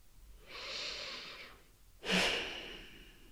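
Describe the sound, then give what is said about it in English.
Slow, quiet breathing by a person pausing to feel the moment: two long airy breaths, the first soft and drawn out, the second starting more strongly and then fading slowly, with no talking. “I'm taking a breath for nothing and just feeling that.”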